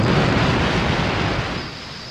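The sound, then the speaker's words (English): Explosion of a ball of super-hot gas as a fighter's gunfire ignites a protuberance on a fortress: a loud, rumbling blast that slowly decays over about two seconds, with no voices. “after saturating it with fire, he saw it erupt in a spectacular ball of super-hot gas”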